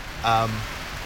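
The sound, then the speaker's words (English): Loud rain pours in a steady, dense wash throughout. A brief voiced sound rises over it near the start. “just like the rain that's happening right now, and I don't even know if this is going to be usable because of how loud this rain is”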